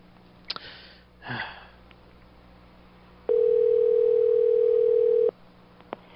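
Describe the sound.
A telephone tone on a call to a restaurant extension: one steady, mid-pitched tone held for about two seconds. Before it come a small click and a sniff, and another click follows it.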